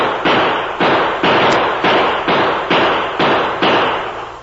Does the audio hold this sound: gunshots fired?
yes

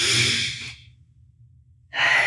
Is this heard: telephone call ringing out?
no

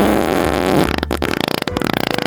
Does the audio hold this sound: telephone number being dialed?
no

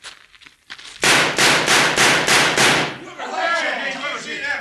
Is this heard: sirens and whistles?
no

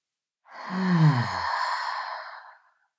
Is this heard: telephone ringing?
no

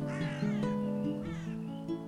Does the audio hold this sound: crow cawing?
yes

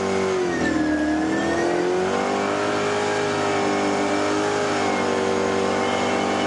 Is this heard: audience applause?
no

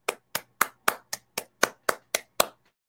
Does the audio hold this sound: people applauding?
yes

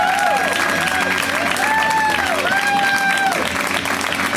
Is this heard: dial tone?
no

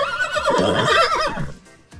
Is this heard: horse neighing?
yes

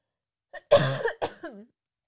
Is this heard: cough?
yes

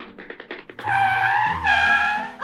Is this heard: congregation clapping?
no

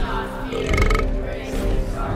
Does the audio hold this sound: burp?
yes

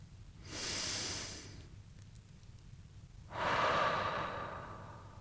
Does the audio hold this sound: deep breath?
yes

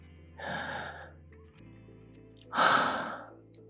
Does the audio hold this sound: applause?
no

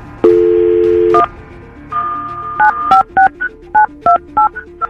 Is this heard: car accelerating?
no

